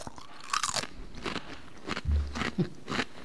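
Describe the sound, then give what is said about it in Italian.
Crisp crunching of a potato chip being bitten and chewed: a few sharp, dry crackling bursts spaced irregularly, fairly faint and with no talk over them. “Devo mangiare una patatina.”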